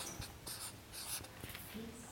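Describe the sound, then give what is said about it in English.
A marker writes words on a board as people call them out, making a few short, faint, squeaky scratching strokes separated by brief pauses. “Just call them out and uh, I'll write them up here.”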